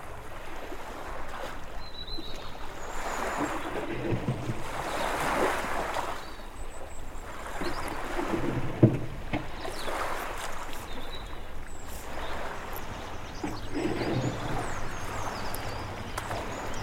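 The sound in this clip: Oars row a boat at sea in slow, regular swooshing strokes, about one every two seconds. A steady wash of water and wind runs beneath them.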